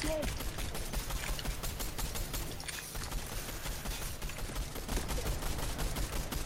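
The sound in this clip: Sprayed gunfire from a weapon in a video game: dense, continuous rapid shots blur into a steady crackling roar that stays loud and busy throughout.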